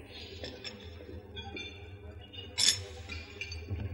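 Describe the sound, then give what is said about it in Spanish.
Cup clinking as a waiter serves coffee: light porcelain chinks over a low background hum, with one brighter, sharper clink standing out partway through. “El camarero le sirve café.”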